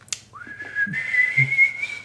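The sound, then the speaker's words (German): Someone whistles a short tune: a quick upward glide settles into a long, clear, slightly wavering high note that climbs a little near the end, with a few soft clicks underneath. “Naja, das kann man gut pfeifen.”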